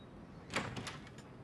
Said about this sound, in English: A red-haired woman opens her front door